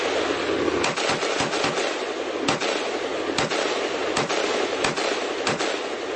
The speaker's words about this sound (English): this is what a tracer round looks like